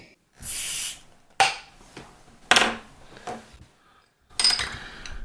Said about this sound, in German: Luft in die Flasche lassen